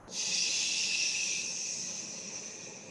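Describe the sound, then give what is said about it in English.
A single long, airy breath during a guided breathing exercise: a steady breathy hiss that starts abruptly and fades slowly over about three seconds, heard alone. “let's do one more time. Inhale and exhale.”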